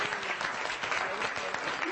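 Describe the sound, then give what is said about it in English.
Audience applause for volunteers at the close of an evening lecture, with steady, dense clapping throughout. “A bigger round of applause for our volunteers tonight.”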